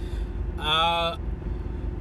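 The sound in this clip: Steady low road rumble inside a car driving home from an early-morning grocery run, even and continuous throughout, with a brief voice-like tonal sound rising above it around the middle.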